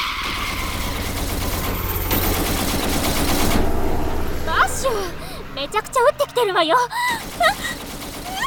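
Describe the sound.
Gunfire from submachine guns: a dense, noisy burst of rapid shots lasting about four seconds, followed by voices talking.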